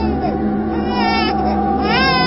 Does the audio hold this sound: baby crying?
yes